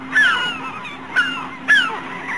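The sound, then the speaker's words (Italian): Birds calling over the sea during a whale hunt: three harsh, honking cries, each sliding downward in pitch, spaced roughly half a second to a second apart over a low steady hum. “Gli uccelli. Gli uccelli!”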